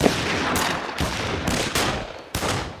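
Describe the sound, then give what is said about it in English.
Pistol shots fired by about half a dozen shooters from roughly a quarter mile away: several sharp, noisy cracks at uneven intervals over a steady rushing background. “there's a half dozen fools shooting at me with pistols from about a quarter of a mile away.”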